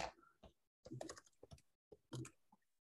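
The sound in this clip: Typing on a computer keyboard: faint bursts of quick key clicks in three short clusters separated by pauses, with no voices.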